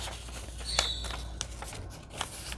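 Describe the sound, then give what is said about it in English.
A sheet of paper is folded and torn in half by hand for a junk journal, giving faint, scattered crinkles and short rustling crackles at an irregular pace. “And I'm going to cut this page in half. The old tried and true method. folding and tearing.”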